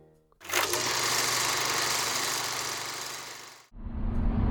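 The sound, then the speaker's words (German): Inside a museum transport van driving on the motorway near the Darmstadt interchange, a steady engine and road roar that drops away abruptly near the end, giving way to a different, lower rumble. “wir sind kurz hinter dem Darmstädter Kreuz, sitzen in dem Museumstransporter und fahren gerade nach Remseck”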